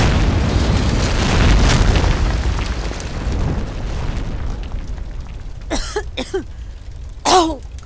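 A gas explosion from Bunsen burner gas jets bursts as a loud, broad roaring blast that slowly fades over several seconds, followed by a few short vocal bursts.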